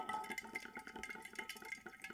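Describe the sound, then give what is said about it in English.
Ice water sloshing and clinking in a glass as someone drinks, a faint, busy wash of small liquid and ice sounds throughout. “that is the ice water, and this is the squeaky mattress.”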